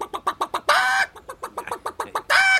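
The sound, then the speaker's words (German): A human voice imitates hens clucking, with many quick, rhythmic clucks broken by two longer, higher, drawn-out cackles. It is a lively vocal imitation, and no spoken words accompany it. “Na ja, ein paar Hennen vielleicht. Ja. Solche nicht. Das sind ja Enten. Hennen gehen so.”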